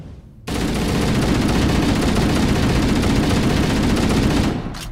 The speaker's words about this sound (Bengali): হঠাৎ কান ফাটানো গুলির শব্দ শোনা গেল আর তার সাথে ভীষণ সশব্দে কাঁচ ফাটার আওয়াজ